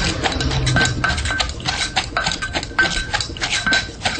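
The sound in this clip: A spoon mashes sliced carrot, papaya and green bean into a sauce while cooking Thai food, making a busy, continuous clatter of metal scraping and knocking against a dish at a fairly loud level.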